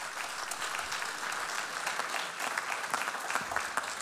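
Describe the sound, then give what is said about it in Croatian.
An audience applauds the HRT Jazz Orchestra and the Slovenian embassy at an evening concert, with dense, even clapping that holds steady throughout. “tako da Jazz Orkestru HRT-a i Slovenskom veleposlanstvu aplauz za ovu inicijativu i za ovaj poziv našeg susjeda.”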